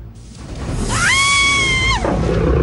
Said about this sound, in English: She finds herself in a sandy area and a tiger stalks out of a cave behind her.